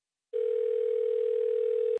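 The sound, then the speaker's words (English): A telephone dial tone heard while placing a call: a steady, loud, single-pitched hum that holds for well over a second, then cuts off abruptly into a short click. “go ahead and dial it.”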